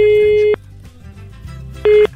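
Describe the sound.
Ringback tone on an outgoing telephone call: a loud steady tone pulse, a pause, then a second pulse cut short at the end.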